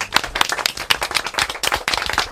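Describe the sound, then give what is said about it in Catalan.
A group claps together after an interview. Many sharp, uneven hand claps overlap in a lively, irregular burst that stays fairly loud for the whole span. “Anem a fer un aplaudiment, va.”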